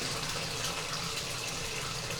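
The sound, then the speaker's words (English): Water runs steadily from a tap, a continuous full, splashing hiss with no breaks, fairly loud and heard alone. “Let's turn this water off.”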